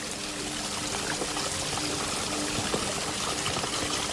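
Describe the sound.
Water trickles down small waterfalls in a forest among ferns, trees and moss. It makes a steady, unbroken rushing and splashing that holds an even loudness throughout, with no voices.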